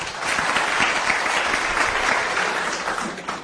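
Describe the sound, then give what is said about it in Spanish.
Audience applause rings out as a crowd claps for a presenter, a dense, steady patter of many hands that holds at an even loudness for about three seconds, with no voices. “Un aplauso para Diego.”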